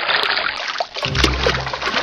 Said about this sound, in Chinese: 搓过盐的牛肺用清水冲洗后，还要在热水中焯洗，然后再在清水中像洗衣服那样使劲揉搓，将血管中的血水全部挤出来。